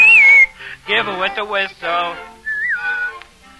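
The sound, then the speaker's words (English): A short whistled phrase in a song about whistling opens, then a singing voice takes over, and another brief whistle returns near the end. “When you get in trouble and you don't know right from wrong, give her with the whistle.”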